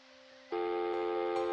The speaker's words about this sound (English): Hiya, this is Joel. Leave a message after the beep.